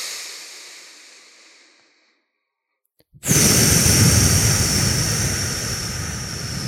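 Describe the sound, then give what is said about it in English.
Breathing exercise, inhaling through the nose and exhaling through the mouth: a soft, airy breath fades away into silence, then after a pause a loud rushing breath starts abruptly and continues steadily, easing slightly toward the end. “So I'm actually inhaling through the nose, exhaling through the mouth.”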